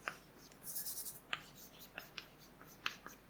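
Chalk writes on a lecture blackboard in quiet, scratchy strokes. Sharp little taps punctuate the soft rubbing at an uneven pace.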